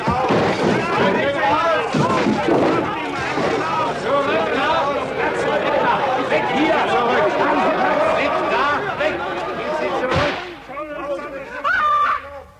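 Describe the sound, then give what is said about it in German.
A single loud gunshot fired into the air bursts out near the end, after a long stretch of excited voices talking over one another. “Der nächste Schuss geht nicht mehr in die Luft.”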